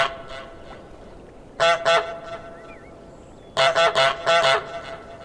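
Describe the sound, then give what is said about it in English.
Goose honks from a video game sound over a steady background hiss: a pair of nasal, cartoonish honks, a pause, then a quick run of several more in a row. “playing Goose Game is when you pick up an item that actually changes how the honk sounds, like honking into a glass milk bottle, a harmonica, or even standing over a well.”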